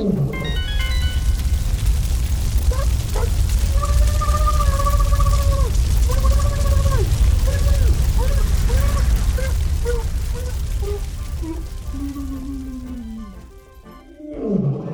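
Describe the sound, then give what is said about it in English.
A dragon's fire breath blasts as one long, loud rushing roar, with wavering tonal growls riding over it before it thins and fades at the end. “Fire breath upon ye.”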